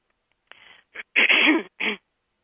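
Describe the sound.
A person clears their throat in four short, rough bursts separated by silence, the third burst the longest and strongest, with no talking alongside.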